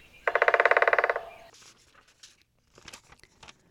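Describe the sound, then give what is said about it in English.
A woodpecker drums on a tree trunk in a forest, one quick roll of many evenly spaced, resonant taps lasting about a second. A few faint, scattered knocks and rustles follow. “Listen for woodpeckers drumming on a tree trunk like this.”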